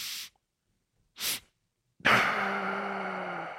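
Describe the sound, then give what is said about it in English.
Cyclic sighing breathing: two sharp, hissy inhales through the nose, then a long, loud, slightly voiced exhale that trails off slowly. “Another group did cyclic sighing. So this would be double inhale through the nose. So big inhale through the nose,”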